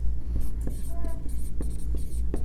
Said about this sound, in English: I have to find some place to write this.